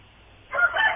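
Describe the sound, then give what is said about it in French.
A rooster in Massissi crows: after half a second of low background hum, a loud, strained call breaks in abruptly and carries on to the end. “on entend le coq chanter”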